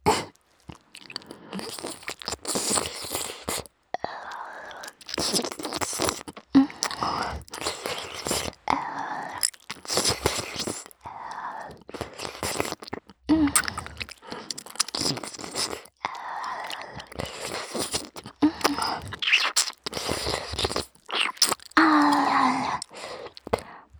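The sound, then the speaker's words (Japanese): Close ASMR mouth sounds of nibbling an ear: many soft wet crunches, bites and smacking clicks in an uneven, continuous stream, with brief pauses between bursts. “こっちのお耳も食べちゃいますよ。先輩のお耳、美味しいですから。”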